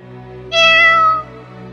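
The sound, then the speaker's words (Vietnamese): A black cat gives a single loud, clear meow near a graveyard. The call holds steady for under a second over a low, constant hum, then stops and leaves the hum alone. “Giữa khung cảnh yên lặng đến mức khiến người ta khó thở, con mèo đen kia lại kêu một tiếng.”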